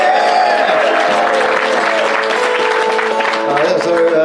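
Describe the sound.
Audience applause welcoming a comedic songwriter onto the stage at a live comedy show, a dense, steady clapping from the crowd that holds loud throughout with crowd voices mixed in.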